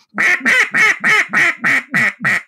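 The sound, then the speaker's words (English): A duck call imitating a duck's quacking: eight loud, evenly spaced nasal quacks in a steady rhythm, each with a slight downward pitch bend at its end. “duck callologists sort of have divided this call into a hail call and a comeback call”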